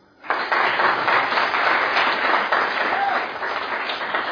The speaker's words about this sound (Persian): برای شجاعتش دست بزنید.